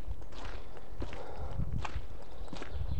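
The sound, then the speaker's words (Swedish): Footsteps pick carefully across wet, slushy ground along an edge beside a snowbank, a few soft, faint squelching steps over a low steady background. “Vi kan bara ta oss fram försiktigt här. Här är det blött och ledigt. Jag är tvungen att gå också på kanten här i det här blöta och lediga här.”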